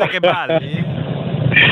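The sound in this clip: A voice imitates a car engine while pretending to drive. A brief spoken sound comes first, then a low, rumbling buzz that lasts about a second.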